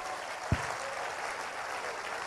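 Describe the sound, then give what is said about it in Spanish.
A church audience applauds the Lord during a sermon, producing soft, steady clapping at a low level. A single dull low thump sounds near the start. “Un aplauso al Señor.”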